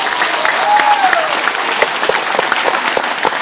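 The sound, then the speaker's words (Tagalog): A church audience applauds, with dense, steady clapping that stays loud and even throughout and includes a few sharper individual claps. “Pumalakpak ang mga pinagpala.”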